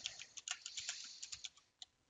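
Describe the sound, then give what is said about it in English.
Quiet typing on a computer keyboard: many light, crisp keystrokes at an uneven pace, some tapped in quick clusters and a few spaced apart, with no voices. “You can see I can type and change some of that information.”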